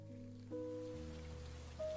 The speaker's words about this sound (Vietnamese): Càng lo lắng hơn nữa khi bầu trời bắt đầu đổ cơn mưa.